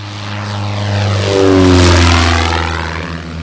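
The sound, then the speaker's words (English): A biplane's propeller engine drones in a steady, loud harmonic roar that swells toward the middle and eases off again, its pitch sliding slightly lower as it grows. “It's what I've really been wanting to do since I was a child, have a biplane and give rides.”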